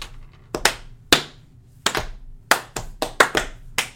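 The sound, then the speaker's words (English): Hand clapping comes as a loose, irregular series of sharp claps, sparse at first and then quicker and more frequent toward the end. “Oh, clapping.”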